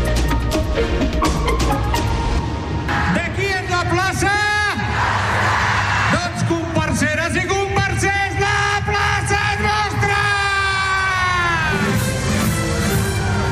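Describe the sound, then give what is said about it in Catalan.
Loud war cry shouted to start the Carmels battle at the Vilanova i la Geltrú carnival: sustained, strongly voiced yelling that fills the whole stretch, with pitch swinging up and down between breaths. “Aquest és el crit de guerra que ha iniciat la guerra de Carmels a Vilanova i la Geltrú.”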